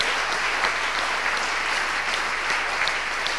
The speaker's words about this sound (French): Let's clap for the Lord.